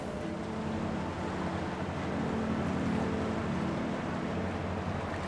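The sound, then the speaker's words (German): A boat cruising across the Templiner See lake near Potsdam: a steady, low engine drone blended with rushing water and wind noise, even in level throughout, without talk. “Fahren wir hier gleich durch den Templiner See, mhm, und dann weiter die Potsdamer Havel lang bis nach Werder.”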